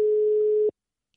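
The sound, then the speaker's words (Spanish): A telephone ringing tone sounds as a call is placed. It is a single steady, low-pitched electronic hum lasting well under a second, and it stops abruptly with no voices. “De hecho, le estoy llamando ya”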